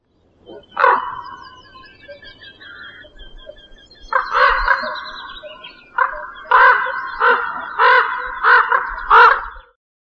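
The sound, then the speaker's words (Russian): A common raven calls in a forest: a harsh, hoarse croak, then a longer rasping call, followed by a run of short, loud, evenly spaced croaks. “Ворон.”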